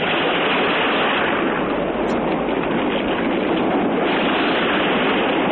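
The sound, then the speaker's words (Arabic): Roaring ocean waves make a continuous, dense rush of noise that stays loud and steady throughout, with no distinct breaks. “هذا صوت هدير الموج، فصوت الموج في اللغة العربية اسمه هدير”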